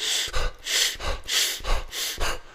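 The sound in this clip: Quick, forceful breaths repeat in a steady rhythmic series as a hyperventilation breathing technique is demonstrated, each one a loud, airy rush with no talking.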